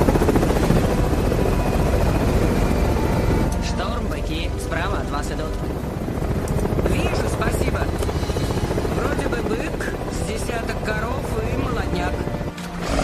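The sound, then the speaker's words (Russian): Helicopter flying over a forest, a loud, steady roar of rotor and engine noise that runs unbroken through the whole stretch, dense and rumbling with other layered sounds blended in. “Вертолет пролетает сквозь лес на фоне огромных деревьев и пестрой зелени. Вертолет кажется крохотным.”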